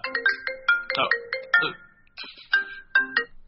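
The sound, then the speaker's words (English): Apple's basic ringtone sounds for an incoming phone call as a bright, marimba-like melody of quick plucked notes in repeating phrases. The melody pauses briefly, then resumes. “Sorry, I just had a call come through. All right. My bad. You know the Apple, everybody knows the Apple basic ringtone now.”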